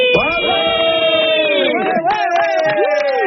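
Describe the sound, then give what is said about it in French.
A man shouts as loudly as he can, a long, strained yell that slides down in pitch, followed by further loud cries with crowd cheering mixed in. “je veux que tu cries le plus fort possible”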